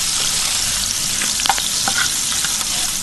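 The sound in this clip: Halloumi cheese frying in a pan makes a loud, steady hiss of sizzling oil, with scattered sharp crackles and pops across the bright hissing bed.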